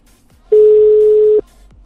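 A telephone line tone sounds as a call is dialled: one loud, steady, mid-pitched beep lasting just under a second, starting and stopping cleanly, with nothing else heard around it.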